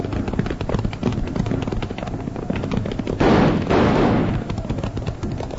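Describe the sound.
Gunfire in a western shootout at Indians riding over a hill: dense, rapid volleys of shots rattle continuously, swelling into louder bursts near the end.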